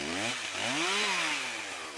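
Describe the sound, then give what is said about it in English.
A chainsaw cuts up burned logs and stumps that are still hot. Its engine drones loud and continuous, and its pitch rises and falls as it revs through the wood. “One crew member cuts up the bigger chunks with a chainsaw, while another soaks the whole area with a hose.”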